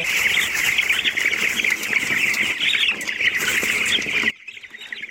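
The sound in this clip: A dense flock of chickens at a poultry farm in Kunduz squawks and clucks in a continuous, overlapping din that stays loud throughout, then cuts off abruptly near the end.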